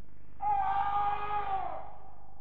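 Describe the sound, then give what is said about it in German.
A scream from a bug-infested house in a radio drama: one sustained, high, harmonic cry lasting about a second, wavering slightly and sagging at its end, over a low steady hum, with no talk. “Der Schrei kam aus dem Wanzenhaus.”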